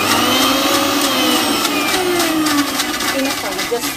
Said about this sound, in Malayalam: നമുക്ക് ഇതിനെ ഒന്ന് മിക്സിയിൽ പ്യൂരി ചെയ്യാം.